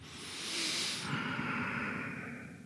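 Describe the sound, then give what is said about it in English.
A long, deep breath is drawn during a guided prayer breathing exercise: a soft, steady rush of air that swells and then slowly eases over a few seconds. “Now let's take another breath together.”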